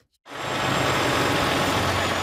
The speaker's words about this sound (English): As night fell on Niagara Falls, a convoy of transport trucks left Marineland loaded with heavy and unusual cargo.